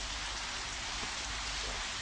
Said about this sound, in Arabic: لماذا أنت في الخارج تحت المطر؟